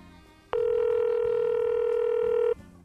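A telephone dial tone sounds as a call connects. It is one steady, loud electronic tone held for about two seconds before cutting off abruptly.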